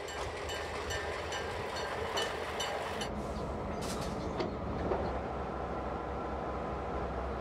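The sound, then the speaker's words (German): A 1960 US-built locomotive is turned on a roundhouse turntable in Taiwan, giving a quiet, steady rumble of mechanical and rail noise with a few brief hissing bursts midway. “Hier wird R21 gedreht, die älteste Lok dieses Typs in Taiwan.”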